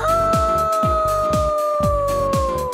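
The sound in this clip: A wolf howl sound effect in a Spanish children's song, one long sustained tone whose pitch sinks slowly, ringing over a steady rhythmic bass beat of repeated music notes.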